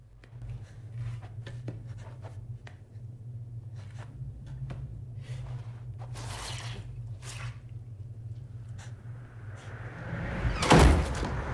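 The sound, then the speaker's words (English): A door closing in a muddy tunnel: a heavy thud near the end rises over a low, steady hum, after a run of soft squelching and scraping noises. “The door closes behind him and a fierce wind races through the tunnel, sucking him violently through the passage.”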